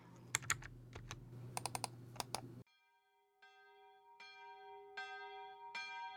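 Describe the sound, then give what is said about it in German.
Typing on a PC computer keyboard at a terminal: a quick run of many crisp key clacks, then a few clear, ringing bell-like chime tones sound alone at a slow, even pace. “Jetzt gehe ich mal wieder an meinen PC und tippe an meinem geheimen Terminal.”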